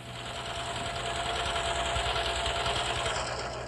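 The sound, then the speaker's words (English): A sewing machine runs steadily, giving a continuous whirring hum with fine, rapid stitching pulses that stay faint and even from start to finish. “I only have a little bit more to sew, and I'll be all finished”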